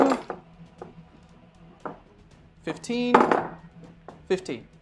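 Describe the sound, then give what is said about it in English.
Loud dice clattering and rolling on a table during a tabletop game: a few sharp knocks, then a burst of rattling and a final clatter, with low voices in the background. “Did you specifically buy the loud dice when you went to the store?”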